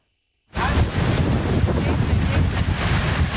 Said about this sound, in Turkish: Fırtına ve hortum önüne kattığını savurdu.